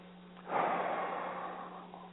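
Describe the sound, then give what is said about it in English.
A deep breath is exhaled in a single long, airy rush that swells quickly and fades over about a second and a half, heard alone over a steady low hum. “simply take a deep breath and let them out like this”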